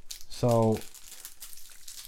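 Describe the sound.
Foil wrapping of a Panini trading card pack crinkles and tears in soft, papery bursts throughout, with a brief voiced tone near the start.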